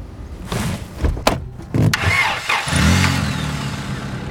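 A car engine starts and the car drives off from a house, with a few sharp knocks early on, then a steadier engine rumble that swells and holds at moderate loudness.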